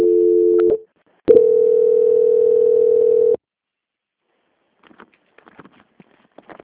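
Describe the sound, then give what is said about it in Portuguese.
Transfer tone on a bank phone call as it passes to quality control: a short steady beep, then a longer one of about two seconds, followed by silence and a few faint clicks. “eu vou transferir a ligação para o controle de qualidade, que dará continuidade à sua contratação”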